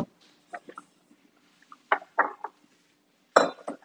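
Dishes clink and clatter as a bowl is taken out while cooking, in a few scattered bursts of light knocks, ending with a louder clunk.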